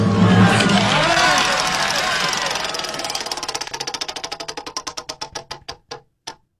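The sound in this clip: A prize wheel given a big spin: its pointer rattles in a fast, blurred whir, then the clicks spread out and slow steadily until a final lone tick as the wheel stops.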